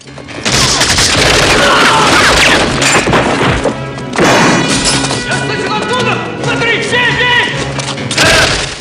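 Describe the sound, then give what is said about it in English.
Gunfire and crashes ring out in a film scene of an attack on a prison, as loud clustered bursts and impacts with a brief lull near the middle. Shouting voices are mixed in. “Rambo fires on guards as they enter the prison.”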